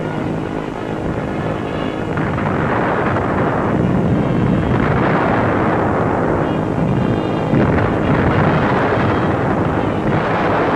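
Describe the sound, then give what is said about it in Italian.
Bombs dropped by an Italian air squadron explode on an enemy airfield, heard as a continuous heavy rumbling roar with slow swells of denser noise rather than separate sharp blasts. “La squadriglia è in vista dell'obiettivo. Giù le bombe,”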